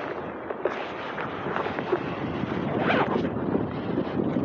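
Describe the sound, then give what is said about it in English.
Strong wind on a mountain buffets and roars in a continuous, gusty rush of noise that surges and eases, loud and steady throughout with no voices. “this is some crazy wind up here on this mountain.”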